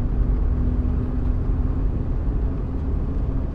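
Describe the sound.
A car driving in a video game: a steady, low engine and road rumble that stays constant and fairly loud throughout, with no voices.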